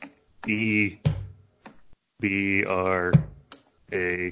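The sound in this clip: Keys clicking on a computer keyboard as a search is typed into a website, a few sparse, sharp taps scattered beneath a voice that talks over most of the stretch.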